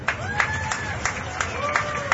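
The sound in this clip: A crowd at an outdoor street protest claps to welcome a speaker, giving a fairly steady run of applause bursts with crowd voices mixed in.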